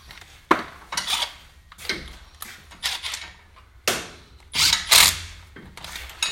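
A wrench tightens bolts on a rear axle in many short, loud metallic ratcheting bursts. The bursts come in an irregular rhythm, with brief quiet gaps between them.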